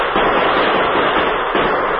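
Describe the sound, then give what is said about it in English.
A volley of gunfire fired down from a rooftop comes as a loud, dense, unbroken crackle of rapid shots with a dull, muffled tone. “All right, mister, but let's give him one more volley.”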